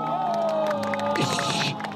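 A crowd cheers and whoops for a young man balancing on high-stacked rollers in a street performance. A steady murmur gives way to a short, loud burst of cheering near the end.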